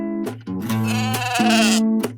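Sheep bleat loudly in overlapping, quavering calls with strong wavering harmonic tones. The calls are sustained for most of two seconds with brief breaks between them, and no talk is heard.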